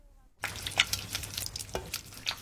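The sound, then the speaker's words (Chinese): Ground white sesame being stirred with small additions of water in a pot, a few soft, wet scraping strokes at irregular intervals, faint and without speech. “继续搅拌，直到白芝麻粉逐渐变成块状，混合后再加入一汤匙，反复两三次，然后逐渐增加分量。”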